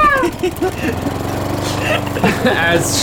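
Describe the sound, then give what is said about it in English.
A voice imitating a lawnmower, a continuous rough, pulsing vocal drone with a steady low buzz held for the whole stretch. “She turns into a lawnmower.”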